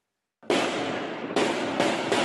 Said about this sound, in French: Des tirs à balles réelles dans un quartier de Valence.